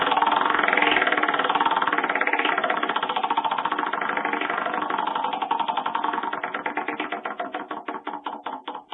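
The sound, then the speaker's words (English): A prize wheel spins during a poker game segment to pick what a player takes home. Rapid, dense clicking slows and spreads into distinct ticks toward the end as the wheel winds down, growing slightly fainter. “Let's spin the wonderful prize wheel and see what you get to take home.”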